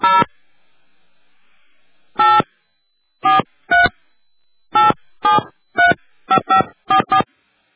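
Telephone keypad tones dialing a number: eleven short, bright beeps, one alone, then after a pause ten more in quickening succession, with no voice over them.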